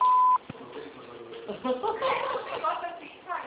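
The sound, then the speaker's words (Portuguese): A single clear, steady beep comes from a phone system's automated attendant, cut off after a moment. After a short pause a voice starts talking over the line. “Após o sinal, digite o ramal ou aguarde.”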